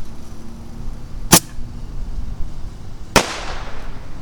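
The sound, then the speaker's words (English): Firework rockets launching, two sharp, loud cracks about two seconds apart over a quiet background, the second trailing off in a brief hiss. “Here goes another rocket.”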